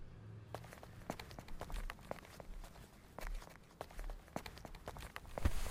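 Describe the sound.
Footsteps walk along at an even pace, with many soft, distinct steps over a faint low rumble.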